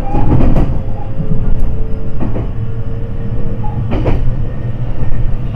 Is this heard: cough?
no